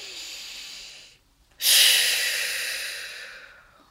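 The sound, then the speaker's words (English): A person takes a deep belly breath after rubbing essential oil between the palms: a long, soft airy rush, a brief silence, then a louder breath that starts strongly and fades slowly. “take a deep, deep belly breath”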